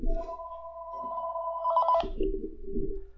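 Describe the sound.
A telephone rings with an incoming call: one long electronic two-tone ring at a steady pitch that turns to a pulsing warble just before it stops.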